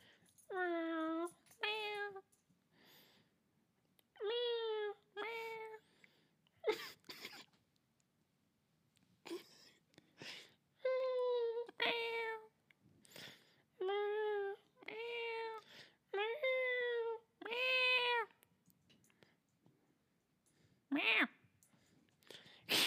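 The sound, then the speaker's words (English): A cat meows over and over, giving many drawn-out, tonal cries separated by short pauses, with a few faint clicks between them. “He's not liking that right now. Like, oh, he thinks something's out there. Meow.”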